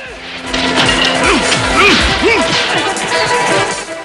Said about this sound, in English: A student holds himself in a doorway using a stave. It is shattered and he falls back.